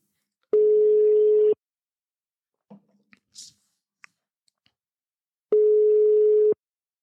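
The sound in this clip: Telephone ringback tone heard while calling someone: two steady, low-pitched tones lasting about a second each, roughly five seconds apart, with faint clicks and small handling noises in the quiet gap between them.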